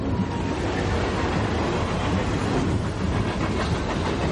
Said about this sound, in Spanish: Al rato el tren avanza atravesando un paisaje arbolado.